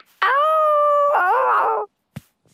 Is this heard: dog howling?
yes